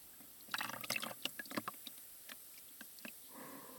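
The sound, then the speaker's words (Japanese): Hot water is poured over the body during a massage, giving soft splashes and drips in irregular bursts, with a gentler trickle near the end; faint and with no talk. “お湯に使っていないところにお湯をおかけしながらマッサージを行います。”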